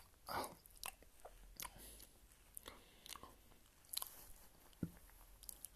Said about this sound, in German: Ich esse mein Döner. Ich esse. Ich aß mein Döner mit Opa.